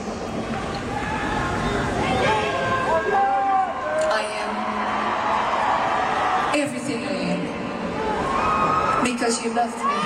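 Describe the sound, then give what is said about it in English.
A concert crowd cheers wildly for a singer, a continuous loud roar of whoops, shouts and yells that lasts ten seconds and swells and surges throughout. “Crowd goes nuts.”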